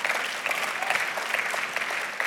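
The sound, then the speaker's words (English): An audience claps during a church sermon, producing a steady, bright patter of many hands at a moderate level, with a few sharper individual claps popping out of the even texture. “Someone just clapping. Come on, you can clap that.”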